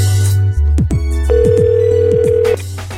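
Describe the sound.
An outgoing telephone call, placed to check a job vacancy at a bank, rings on the line: a loud steady electronic tone over a low hum, with several short sliding chirps and no voices.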